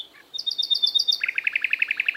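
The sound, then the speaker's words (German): Nightingale song in a city forest in Hannover: a rapid string of bright, high chirps gives way to a fast run of evenly repeated, slightly lower notes, clear and alone. “Das war die Nachtigall.”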